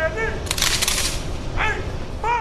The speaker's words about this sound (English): A 21-gun salute pierced through the silent crowd of hundreds that came to pay their respects to Officer David Rose